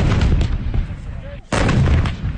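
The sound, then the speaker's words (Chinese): Artillery booms and rumbling blasts from a regiment's combined-arms attack-and-defence exercise deep in the Kunlun Mountains of Xinjiang, loud and continuous, with a brief lull before the firing surges again. “巍巍昆仑山深处，炮声隆隆，硝烟阵阵，新疆军区某团组织的一场全要素合成体系攻防演练正在火热进行中。”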